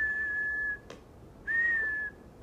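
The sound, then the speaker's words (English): A tea kettle whistles in two steady, high-pitched bursts, the first longer, separated by a brief pause with a soft click. The tone holds a constant pitch and is moderately loud, with no voices. “Inside, the tea kettle whistled.”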